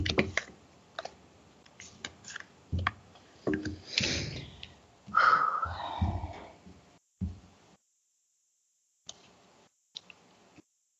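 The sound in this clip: Tarot cards being flipped over one after another, giving a quick irregular series of sharp, crisp flicks and soft slaps, with a few louder snaps and a short pause near the end, and no voices.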